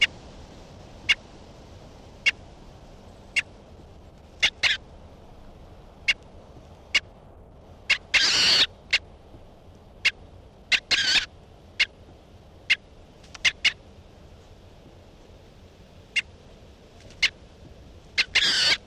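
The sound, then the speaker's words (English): Calls of a bird being handled: many sharp, brief high chips at irregular intervals, with a few longer harsh, rasping bursts among them over a faint steady hiss. “this is Bird 368 being handled.”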